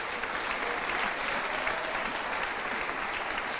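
Applause from a church audience during a worship service, a dense, steady patter of many hands clapping at an even level for the whole stretch, with no voices standing out.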